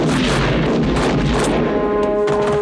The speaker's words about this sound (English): You just shot a policeman.